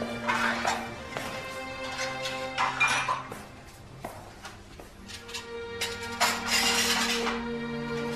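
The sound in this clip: Plates clink and knock as they are picked up and handed over. A few light, irregular clinks sound over a steady tonal background, with no talk.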